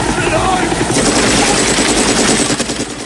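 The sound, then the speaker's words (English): Machine gun fire from a helicopter in a Rambo film, with bullets raking a river, forms a loud, dense, continuous roar of rapid shots over the beating drone of the helicopter. “Bullets riddle the river, sending plumes of water into the air.”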